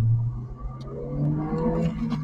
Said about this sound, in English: Jay drives around aimlessly trying to decide if he wants to do it.